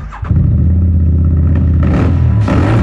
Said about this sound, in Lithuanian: Street Adventure motociklas ar motoroleris.